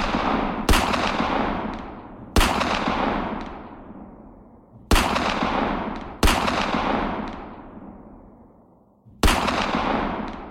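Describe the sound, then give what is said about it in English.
Revolver gunshots: five loud, sharp blasts fired at irregular intervals, each followed by a long, slowly fading echo tail. “As he empties the gun on her.”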